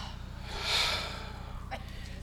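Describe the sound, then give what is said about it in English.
A group of people take a deep breath together. A soft, airy inhale swells and then fades, faint against a quiet, low background. “let's just take a moment and let's just breathe”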